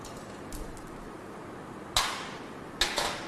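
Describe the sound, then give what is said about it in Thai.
Sharp clicks come from removing the last hidden screw of a plastic cover: one faint tick early on, then two louder, crisp snaps spaced apart against a quiet background. “ถอดพลาสติกออกนะครับก็จะเห็นน็อต1ตัวที่ซ่อนอยู่นะครับทำการถอดน็อตฝาครอบตัวสุดท้ายนะครับออก”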